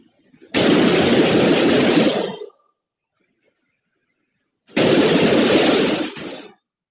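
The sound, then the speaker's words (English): Gunfire in a school hallway: two loud, harsh, sustained bursts of shots, each lasting about two seconds, separated by a few seconds of silence. “then you will hear the shooter fire several shots in the opposite direction as that child turns and runs away.”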